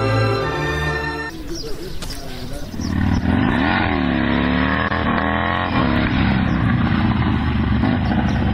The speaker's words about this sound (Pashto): زه به دا موټر سکل لګ بغل ته ودروم.